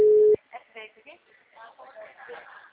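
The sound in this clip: A telephone tone heard while a call is being dialed: one loud, steady, mid-pitched beep that cuts off abruptly, followed by a voice speaking.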